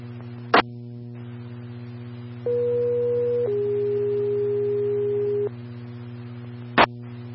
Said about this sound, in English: Medic 6, standby for test tone.